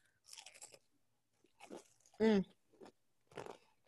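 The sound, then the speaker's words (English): Chewing cold chicken dipped in ranch and buffalo sauce: a few short, crunchy, moist bursts of chewing, with a brief vocal sound in the middle. “Is it too loud? No. I can hear you chewing.”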